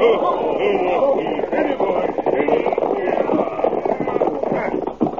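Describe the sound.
Horses' hooves clatter in a radio drama as riders pull up near a house. A rapid clip-clop runs under voices that speak throughout.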